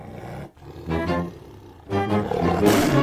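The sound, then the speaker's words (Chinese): A tiger roars in two long, rumbling bursts with a deep growling texture, the second one louder and rougher, heard alone without talk. “啊，是老虎啊！”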